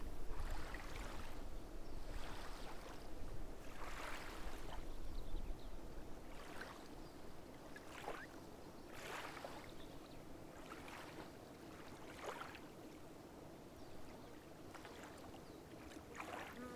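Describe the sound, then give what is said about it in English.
Water lapping on a shore: soft splashes recur roughly every second or so, faint and gentle over a steady low rumble, with no voices. “The water lapping on the shore sounds soothing and peaceful.”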